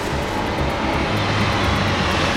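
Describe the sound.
A helicopter flying gives a loud, steady rotor and engine roar. The broad, continuous noise fluctuates only slightly throughout and has no voices over it.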